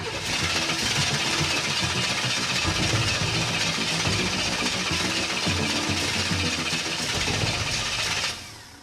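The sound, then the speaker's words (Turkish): Car engine being started with the ignition, a loud, dense mechanical roar that holds steady for about eight seconds before dropping away at the end, with no talk over it. “Kontağı çevirip biraz bas bakalım ne oluyor. Basıyorum. Tamam. Birazdan çalışacak gibi görünüyor. Marş basacak galiba.”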